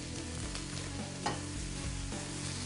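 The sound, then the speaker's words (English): Smoked food frying in a hot pan: a steady, soft sizzle and crackle with stirring, plus one brief louder knock partway through. “So just get them in there, just make sure the pan gets hot. And you just cook them until they just get plump.”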